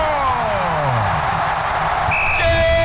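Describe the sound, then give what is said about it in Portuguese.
A referee's whistle blows to end a football match Colombia won 1-0. The brief, high shrill blast comes near the end, above a loud continuous crowd roar and an excited commentator's voice. “quando apita o árbitro, acabou!”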